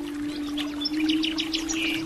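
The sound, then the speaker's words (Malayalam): A migratory bird calls in many quick, high chirps and short twitters, fairly faint over a steady low hum that runs through the whole moment. “ദേശാടന കാലം പൂർത്തിയാക്കി ഇവൾ, ഈ ദേശാടന പക്ഷി, മടക്കയാത്രയ്ക്ക് ഒരുങ്ങുകയാണ്.”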